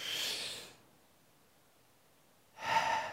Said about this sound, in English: Everybody, just take a breath with me. Once more, and hold it for just a second.